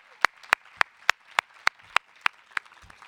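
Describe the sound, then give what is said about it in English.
Nine crisp claps after a round of a poetry contest, evenly spaced about a third of a second apart, each sharp and bright over a faint background hiss. “Please give it up for the people from round one and their beautiful poems. Come on.”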